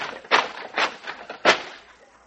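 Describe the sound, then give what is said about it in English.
An axe chops wet firewood in a few dull, irregular thuds, each short and woody, heard alone without talk. “Well, the wood is all wet. I better chop up some more firewood.”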